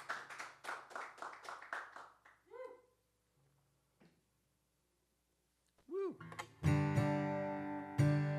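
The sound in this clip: Brief, steady run of claps from a small audience cheering a live musician, Andy McIntyre, between songs at a show. After a pause, a gliding pitched tone and loud sustained instrumental chords follow.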